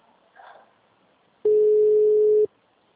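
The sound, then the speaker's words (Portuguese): A telephone busy signal: a single steady mid-pitched tone lasting about one second, preceded by a faint short sound and otherwise surrounded by quiet. “Agora eu vou ficar só ligando, ligando, ligando, ligando. O número está ocupado.”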